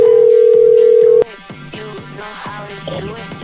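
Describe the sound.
A steady, loud telephone dial tone hums for about a second as a call is placed, then cuts off abruptly into quieter, busier sounds.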